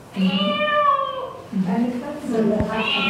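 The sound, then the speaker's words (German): A cat meows in a few long, drawn-out, loud calls, played as a recorded sound in a guessing game about animals from fairy tales. “Eine Katze.”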